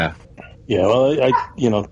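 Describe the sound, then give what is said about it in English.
A dog barking in a few short bursts, mixed in with people talking. “Shut up, dog.”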